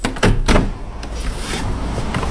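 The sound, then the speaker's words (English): A window is opened with a couple of quick knocking scrapes, followed by a steady broad rush of air noise. “Let's open the window, shall we?”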